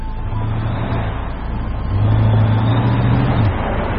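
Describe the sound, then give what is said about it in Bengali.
A car engine hums as the vehicle turns around and drives off. The low, steady rumble grows louder after about two seconds and holds there. “গাড়ি ঘুরিয়ে উল্টো দিকে drive করতে থাকে প্রত্যয়।”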